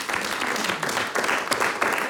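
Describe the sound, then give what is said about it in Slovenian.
Audience applause for a guest at a live game event. Thick, continuous clapping holds at an even, fairly loud level throughout. “Dajmo še en aplavz, seveda za Antija,”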